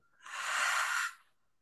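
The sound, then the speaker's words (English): A long, deep belly breath pushed out during a guided breathing exercise, an airy, hissing rush that swells quickly, holds steady for about a second, then fades away alone with no talk. “Inhale through the nose, fill your belly, fill all the way to the top. And let it go.”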